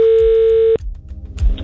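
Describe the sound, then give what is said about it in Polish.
A steady telephone dial tone hums loudly for under a second as a call is placed, then cuts off abruptly into faint low rumbling. “Akurat teraz mówiliście, więc ja wykręciłem numer, więc dzwonimy do Roberta Turnejki.”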